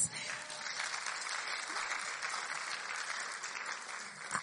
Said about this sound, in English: Can everybody give a clap offering for Pam?